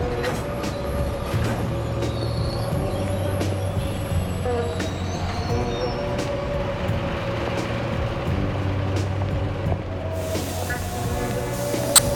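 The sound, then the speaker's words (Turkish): A passenger train from Bratislava to Munich pulls in at a station platform, with a steady low rumble, a sustained tonal hum and a faint high whine holding evenly throughout. “681 numaralı tren şu anda F peronuna yanaşıyor.”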